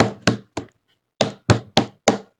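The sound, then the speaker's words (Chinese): Hands pound frantically on a door, seven loud, heavy thuds in two bursts: three quick blows, a short pause, then four more in an even rhythm, with no talk. “接着就是疯狂的砰砰砰砰的拍我的门”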